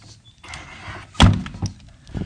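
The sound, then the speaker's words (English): A door opens and closes: a soft rolling rumble gives way to one loud, heavy thud, followed by a couple of lighter knocks as it settles. “doors lead us into different places. And like any good door, a door will open and a door will close.”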